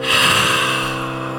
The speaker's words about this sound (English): When you breathe out, you can breathe out through your mouth and say aha, you know.